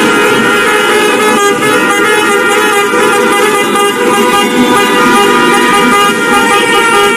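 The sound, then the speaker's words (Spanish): Many car horns honking at once in street celebrations across Andalusia after Spain's World Cup victory, forming a loud, unbroken blare of overlapping tones over traffic noise for the whole stretch. “Los sonidos que seguro han escuchado tras las celebraciones de la Copa del Mundo que ha logrado España”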